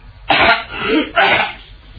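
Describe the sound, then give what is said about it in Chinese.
A performer's voice imitates a man coughing, with a few rough, throaty bursts in quick succession, loud and alone. “老方不由得嗓子眼一刺呀，咳嗽了两声”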